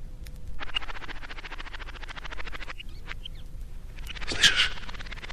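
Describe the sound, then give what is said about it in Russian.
Magpies chattering with other birds calling: a fast, rattling run of harsh calls lasts a few seconds, then breaks off. After a short gap comes another burst of chatter with a sharper call. The sound is fairly quiet, with no voices. “Птицы. Птицы кричат. Сороки-белобоки шебуршат.”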